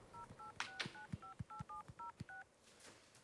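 A telephone number is keyed in as a run of nine short, evenly spaced touch-tone beeps. Each beep is a two-note chord, with soft clicks in between, and the whole sequence is quiet.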